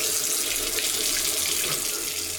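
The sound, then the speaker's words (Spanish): Water runs steadily from an open tap during washing, a continuous bright splashing hiss that holds an even level throughout, with no voices. “Si no cerrás la llave mientras lavas dos platos o te cepillas los dientes, Estás desperdiciando el agua”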